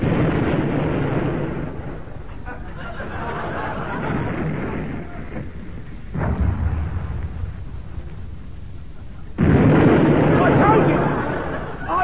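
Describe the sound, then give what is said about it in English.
A weapon fired on command sets off explosions. Two heavy, rumbling blasts erupt, each followed by a sustained roar that slowly fades, amid a background of voices. “Wherever that brute is, fire one. Fire one!”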